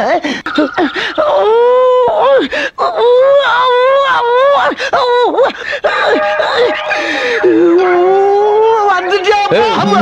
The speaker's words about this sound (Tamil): இப்ப எதுக்கு அழுகுற? நான் வீட்டை விட்டு போயிட்டேனேன்னு அழுகுறியா